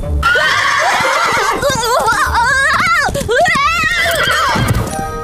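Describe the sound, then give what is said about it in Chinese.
A horse whinnies loudly in repeated wavering neighs while its hooves clip-clop, in a scene about learning nomadic horse-riding skills. “马儿，你要乖乖的，家徒能不能达到游牧人的标准就看你的”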